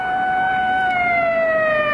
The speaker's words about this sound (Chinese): 远处忽然响起了警车声。